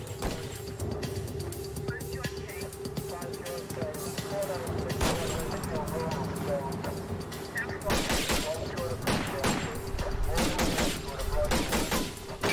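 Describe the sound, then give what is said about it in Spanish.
Rifle gunfire from a driver shooting at police after being forced over beside the road, with many loud cracking shots in bursts, heaviest in the second half, amid voices. “el conductor saca un rifle y comienza a disparar.”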